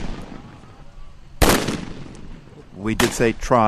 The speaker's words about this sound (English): This is a sound of clashes today between Palestinians and Israeli troops.